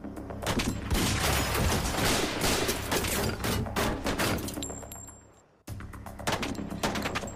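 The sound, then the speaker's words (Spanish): Heavy gunfire erupts as a suspected serial bank robber opens fire on an FBI SWAT team during a 1996 arrest: dense, continuous shots roar for over five seconds, break off briefly, then resume. “En lo que los agentes pensaron que era una movida suicida, Langan decidió abrir fuego.”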